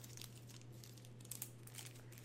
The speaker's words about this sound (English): Can you hear that? I'm trying to get the card out.